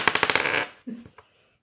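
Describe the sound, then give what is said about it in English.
A twelve-sided die rolled on a table: a fast rattling clatter of bounces, then two softer knocks as it settles into silence. “That was a 12 with a D12. That was the sound of rolling really high and destroying someone if you were using a big enough fireball”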